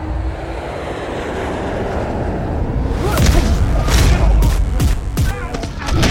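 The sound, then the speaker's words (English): An airplane takes off with a broad, loud engine roar that swells after a few seconds, punctuated by several sharp, heavy bursts. “sit back, relax, and prepare for takeoff.”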